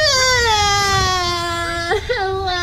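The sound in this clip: A child cries in one long, sustained wail. The loud, tonal sob holds steady, then breaks briefly near the end before the crying resumes.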